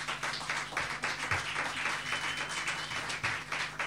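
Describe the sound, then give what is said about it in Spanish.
Audience applause welcoming a musician at a poetry evening: a steady wash of many hands clapping, moderately loud, with a few distinct individual claps audible throughout and no speech over it. “vamos a empezar a calentar los bracitos recibiéndolo con un fuerte aplauso, el señor Jonah.”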